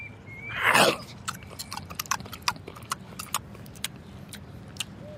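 Someone eating and chewing food: a short rustling burst at the start, then many irregular, faint crunchy clicks and smacks.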